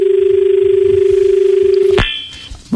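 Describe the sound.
A telephone call connecting on a farming radio phone-in about millets: a steady, low, pulsing line tone runs for about two seconds, then a sharp click cuts it off and the line opens to faint noise.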